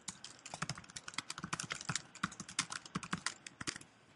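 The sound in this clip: Code being typed on a computer keyboard, many quick, uneven keystrokes clacking in rapid bursts with brief gaps, fairly soft and with no talking.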